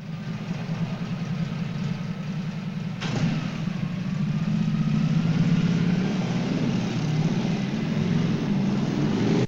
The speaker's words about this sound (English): Frank is driven by a squad car into the police vehicle compound.